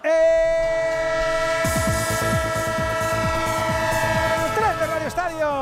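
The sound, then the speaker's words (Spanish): Train horn blasts in a sports radio jingle, long sustained harmonic tones over rhythmic clickety-clack of a moving train, with a loud steady level and a brief warble near the end. “El tren de Onda Cero, claro que sí, el tren del deporte.”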